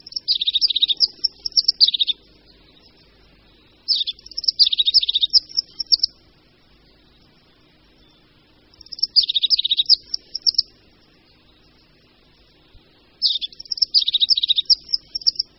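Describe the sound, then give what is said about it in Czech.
Song of a crested tit, a bird of mountain spruce forests, heard in four separate bursts of high, rapid chirping trills, each about two seconds long, with quiet gaps between them. “Zpěvem vyznačují samečci svá hnízdní teritoria, tedy okrsky, které obhajují před jinými samečky svého druhu.”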